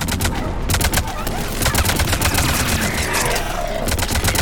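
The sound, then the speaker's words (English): Gunfire from shooting in a video game: a dense, rapid stream of sharp shots that keeps up without pause for the whole stretch, loud and steady, with no clear gaps between bursts. “so we shoot one, and then we, at the same spot, we shoot two.”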